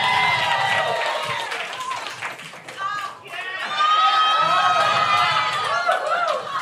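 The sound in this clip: A live comedy festival audience reacts as someone is handed his first McDonald's Big Mac: a loud, continuous wash of overlapping voices, shouts and cheering with some clapping, swelling slightly toward the end.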